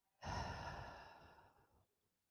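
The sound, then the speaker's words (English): One deep breath out follows an inhale through the nose. The airy exhale lasts about one and a half seconds, starts full and soft, then tapers away to silence. “Take a deep breath in through the nose. Breathe out.”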